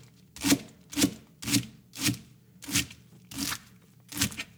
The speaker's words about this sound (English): so just a nice even chop on the leeks